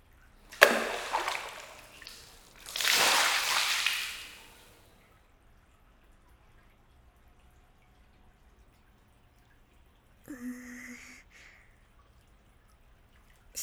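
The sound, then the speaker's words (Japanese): Water splashes as it is poured over someone's head to rinse their hair, in two short gushes within the first few seconds, followed by a long stretch of near silence. “頭流しますので目をつぶってください。”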